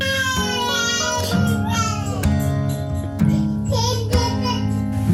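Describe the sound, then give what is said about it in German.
A baby cries in the background, in wailing, babbling, strongly tonal cries that carry on throughout with a few sharp clicks among them, while people talk. “Ich hoffe, man hört gerade das Babyschreien nicht im Hintergrund. Unser Kleiner. Doch, das hört man”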